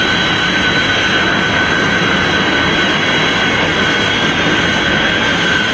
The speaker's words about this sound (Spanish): Allá va, atravesando la barrera del sonido.